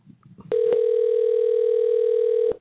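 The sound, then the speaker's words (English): An outgoing telephone call gives a steady, loud electronic tone that holds unbroken for about two seconds, preceded by a few faint low bumps. “we're going to try to call her right now. Noah, are you on this? Yes. Yeah, you are. Okay. All right. So we're dialing.”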